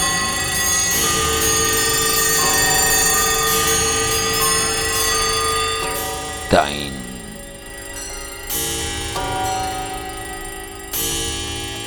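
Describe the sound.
Clock tower bells chime at Puerta del Sol, ringing as long, sustained overlapping tones that shift pitch a few times, with a sharp swooping burst partway through.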